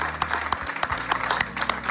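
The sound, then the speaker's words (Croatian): Scattered applause, faint and brief: a few separate claps patter unevenly from a small audience, quiet and short-lived. “ja pa svoje strane da propratim sa jednim aplauzom i molim vas za mi sebe”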